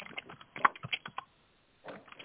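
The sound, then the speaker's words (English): Computer keyboard typing picked up on an unmuted call microphone: faint, irregular clicks and taps in short bursts, a brief silent pause, then a few more keystrokes. “I apologize for typing. I forgot to mute myself.”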